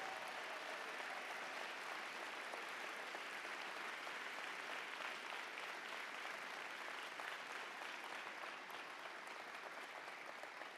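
Audience applause welcoming the head coach of the Indianapolis Colts: a faint, dense, unbroken wash of clapping that stays even from start to finish.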